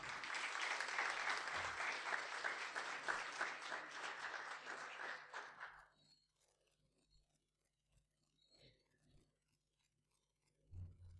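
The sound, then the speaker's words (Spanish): An audience applauds a speaker at a conference lecture with dense, steady clapping for about six seconds. The applause then stops abruptly, leaving near quiet with a few faint shuffles and knocks. “Lo recibimos con un fuerte aplauso.”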